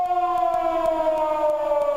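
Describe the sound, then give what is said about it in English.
An air raid siren wails as one steady, loud, continuous tone whose pitch sinks slightly over its span, with no voices present. “I just thought I'd play an air raid siren.”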